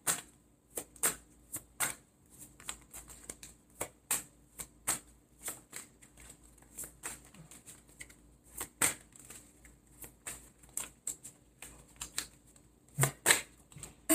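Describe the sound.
Tarot cards shuffled by hand during a reading: a long run of crisp, papery riffles and snaps, many quick irregular clicks at low volume, with no talk.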